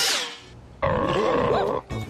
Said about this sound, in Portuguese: Nossa! Que barulhão! Foi a minha barrigona agradecendo pelo almoço!